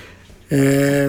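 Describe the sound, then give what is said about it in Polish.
Windows system notification chime played through a radio receiver's speaker: after a half second of quiet hiss, a single bright, bell-like plink rings out abruptly and holds steady. “Ale słyszeliście ten dźwięk, który był przed chwilą. No to tak, plumknięcie. To był dźwięk z Windowsa. przez właśnie głośnik tego radia.”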